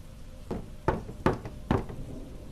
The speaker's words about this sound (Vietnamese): Tiếng gõ ba tiếng rõ mồn một, như là đang có ai gõ gõ vào cánh cửa bằng gỗ.